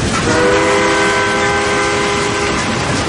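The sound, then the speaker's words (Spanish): A train rumbles through a dark tunnel in a loud, unbroken roar, with long, steady whistle tones sounding above the din for most of the passage. “El ferrocarril atraviesa un oscuro túnel.”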